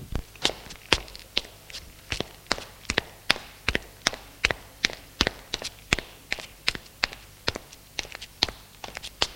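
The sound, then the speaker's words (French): Two people climb wooden stairs together, their many footsteps landing as sharp, hollow knocks in a quick, steady rhythm, some steps overlapping or doubling up. “Elle s'assoit sur les premières marches de l'escalier de bois. Cela suffit. Lève-toi et monte avec moi. Elles montent toutes les deux au premier étage.”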